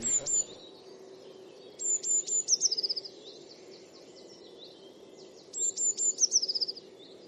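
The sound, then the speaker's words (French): Blue tit singing: a brief, thin, high note, then two high-pitched phrases separated by a pause. Each phrase opens with piercing notes and runs into a rapid, descending trill of short notes over a faint low hum. “Mésange bleu.”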